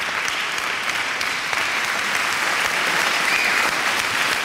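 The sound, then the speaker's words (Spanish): Audience applauding after a comedy performance, a dense, even wash of clapping that stays steady and fairly loud from start to finish. “Como aplauden”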